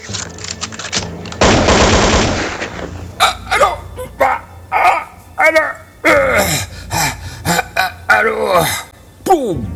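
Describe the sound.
Gunfire at a prison: a loud, rapid, continuous burst of shots lasting about two seconds, followed by voices talking excitedly over scattered noise.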